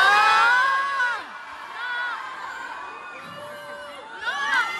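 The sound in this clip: A crowd at a bullfighting event in Bayonne shouts and whoops with many voices at once, answering a speech against bullfighting. The loud outburst fades into scattered calls, then swells again near the end.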